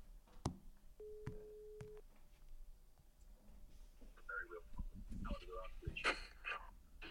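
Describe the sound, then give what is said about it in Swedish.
A telephone call ringing out, with one faint, flat electronic ring tone lasting about a second. Soft voices and breathing follow. “Så nu ska vi ta och ringa honom och avslöja det här.”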